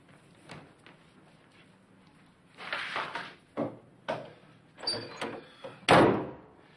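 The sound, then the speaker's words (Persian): A bathroom door being closed: a few soft rattles and knocks build to several louder scraping bumps, ending in a solid, louder thud, with no talking. “برو در دستشویی ببند. میای بیرون چرا نمیبندی؟”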